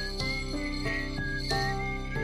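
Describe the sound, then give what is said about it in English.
A video game character whistles along with an instrumental melody, the clear whistled tune stepping through a few sustained notes over steady, tonal accompaniment. “except Eska, who dutifully whistles along with their melody”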